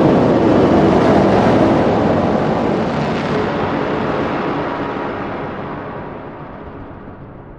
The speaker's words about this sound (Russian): Раздался оглушительный выстрел.